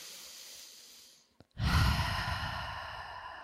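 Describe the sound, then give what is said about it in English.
Slow, deep breathing: a soft, drawn-out inhale fades, then after a short pause and a small click comes a strong, long exhale that slowly tapers off. “please take some slow and deep breaths with me. Starting on the first breath right now.”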